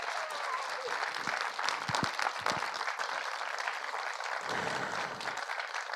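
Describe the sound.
Audience applause welcomes panel guests onto a stage, a dense, steady clapping that holds at an even loudness for the full six seconds with no pauses.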